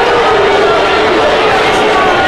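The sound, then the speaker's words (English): A baseball stadium crowd reacts with displeasure to an umpire's call on a half swing, a loud, dense, continuous roar of many voices that never lets up. “Crowd doesn't like it”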